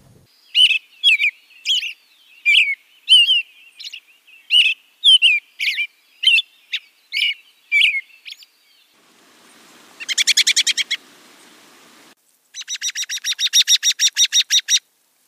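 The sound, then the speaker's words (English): American robin song: a run of many clear, whistled, warbling phrases, each short and repeated at a steady unhurried pace with brief pauses between, followed by two bursts of harsher, rapid buzzy chatter. “And our first one is the lovely American robin.”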